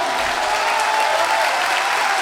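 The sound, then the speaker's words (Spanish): An audience applauds a group of musicians with a loud, dense, unbroken roar of clapping hands that holds an even level from start to finish. “Grandes aplausos para estos grandes músicos internacionales.”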